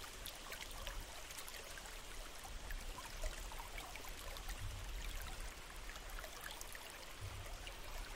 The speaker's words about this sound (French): Concentrez toute votre attention sur les sons de l'eau, purs, simples, envoûtants.